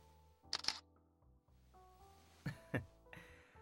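Camera shutter clicks sound as photos are taken: two quick pairs of faint, crisp clicks separated by a short quiet gap.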